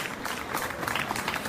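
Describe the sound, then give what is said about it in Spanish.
Dense applause from an audience at a public tribute event, steady clapping through the whole moment with faint voices mixed in. “Un aplauso, porque realmente es donde se retiró nuestro emperador.”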